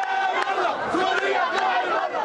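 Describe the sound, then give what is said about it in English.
A large, raucous but peaceful crowd marching toward Martyr Square in Lebanon gives off a loud, unbroken roar of shouting and chanting voices that stays dense and steady throughout. “Rows of Lebanese security forces keep a vigilant watch on this large, raucous, but peaceful crowd as it heads toward Martyr Square, where Hariri's body is buried.”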